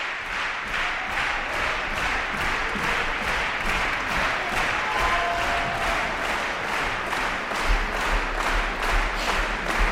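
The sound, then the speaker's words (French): Audience applauding an orchestra after a symphony, with sustained dense clapping carrying a steady rhythmic pulse throughout, loud and continuous with faint crowd murmur. “Et voilà, le public qui décidément n'a pas envie de laisser partir Théodore Corentis ni l'orchestre.”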